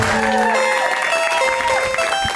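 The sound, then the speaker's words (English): Applause from a comedy show audience welcoming the host, a steady wash of clapping that carries through with music playing underneath. “Put your hands together. Put your hands together.”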